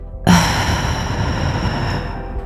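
A long exhaled breath in a guided belly-breathing exercise, a steady, fairly loud airy rush lasting about two seconds with no talking.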